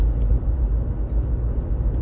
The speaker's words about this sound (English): So here I am driving to work recording.